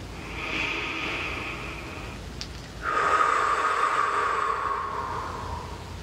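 A slow, deep breath during a guided meditation: a soft airy inhale followed by a longer, louder, rushing exhale, both steady and unhurried with no voice over them.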